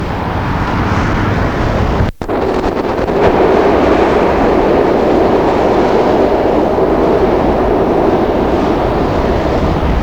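A subway train running, a steady, loud, broad rumble that continues throughout with one brief dropout early on and no talk.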